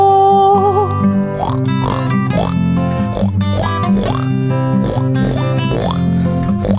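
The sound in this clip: Pig oinks and grunts in a cheerful farm-animal song set on a meadow, with repeated short upward-gliding squeals over a steady, loud musical backing.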